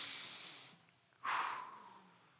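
A single deep breath drawn in, a short soft rush of airy hiss that swells quickly and then fades, quiet and alone with no talking.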